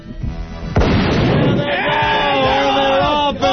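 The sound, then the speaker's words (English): A single sharp starting-gun shot fires to begin a race, cutting in abruptly after a murmuring start. A loud, sustained crowd roar with cheering and overlapping voices follows it through to the end. “All right, here we go. Let's get the starting gun.”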